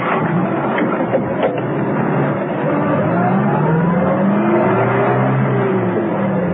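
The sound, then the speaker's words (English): A taxi car drives through narrow streets, its engine a loud continuous drone whose pitch climbs in the second half as it accelerates. “A short while later, while rounding a corner of the narrow streets, Arcos stopped the taxi.”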